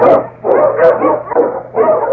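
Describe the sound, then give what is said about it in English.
An Eskimo lead sled dog barks loudly, giving several sharp barks in quick bursts with short pauses between them. “The Wonder Dog King, swiftest and strongest of Eskimo lead dogs, blazes a trail through storm and snow for Sergeant Preston”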